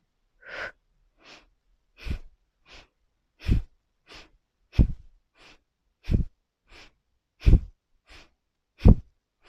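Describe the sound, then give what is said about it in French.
Slow, even breaths in and out during a belly breathing exercise in a yoga practice, each breath a soft airy rush. Quieter and louder breaths alternate in a regular rhythm over many cycles. “Donc expire, le ventre rentre. Inspire, le ventre ressort.”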